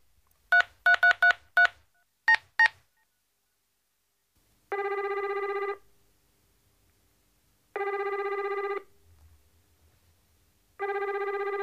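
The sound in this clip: A telephone being dialed: a quick series of about eight short touch-tone beeps, then a steady ringing tone that repeats three times with long silent pauses in between.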